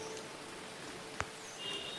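Light drizzling rain falls around muddy ground as a faint, even hiss, broken once by a single soft tap near the middle.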